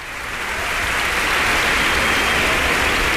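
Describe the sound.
A sold-out concert audience in a cultural centre hall applauds a Mallorcan soloist. The clapping is dense and sustained, rising quickly and then holding steady and loud.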